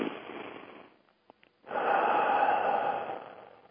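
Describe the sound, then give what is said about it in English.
Deep breath during a guided stillness exercise: a steady airy draw of breath, a short pause with a small click, then a longer, louder rush of breath that trails off, with no talk. “Now take a deep breath”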